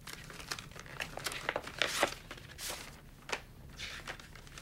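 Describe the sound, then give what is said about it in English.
Paper document being unfolded, a run of soft crinkling and rustling crackles, fairly faint and irregular throughout. “He unfolds a document and reads it.”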